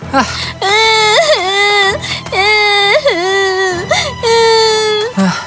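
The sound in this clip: A little girl cries in loud, drawn-out wailing sobs, several long cries that rise and fall in pitch with short breaths between them.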